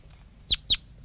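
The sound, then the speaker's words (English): Two short, sharp, high-pitched chirps come from a juvenile bird flying over. They are quick and evenly spaced, loud against a faint low background hum. “The bird just flew over. I think it was one of those juveniles.”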